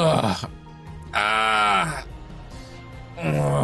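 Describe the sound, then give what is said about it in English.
A voice imitates a low groaning sound coming from inside a room, in a few drawn-out, moaning tones with pauses between them. The longest tone sags downward in pitch near its end. “coming from inside the room. Like a groaning sound.”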